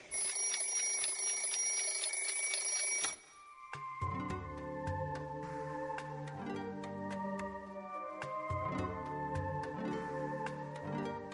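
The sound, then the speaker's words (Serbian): An alarm clock rings with a loud, continuous, high metallic trill for about three seconds. It then cuts off, and a gentle chiming melody follows. “Budilnik.”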